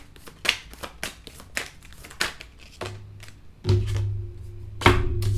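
Tarot cards are shuffled and drawn, a run of many soft, quick riffling clicks and taps in uneven bursts, with a low steady hum entering partway through.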